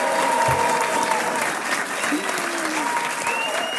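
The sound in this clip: Warm applause from an audience in a cinema hall during a live quiz game recording, a dense, steady clapping that holds at an even loudness for the whole stretch.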